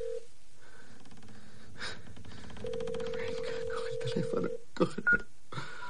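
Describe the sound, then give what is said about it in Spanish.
A mobile phone dials a number in a series of short keypad beeps and a long sustained tone, with tense breathing and gasps between the presses. “Corta la llamada al no recibir contestación y marca otro número. Se lo lleva al oído mientras la madera continúa crujiendo.”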